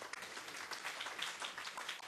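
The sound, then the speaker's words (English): An audience applauds, a faint, steady patter of many hands clapping that lasts the whole clip. “A little round of applause for Richard”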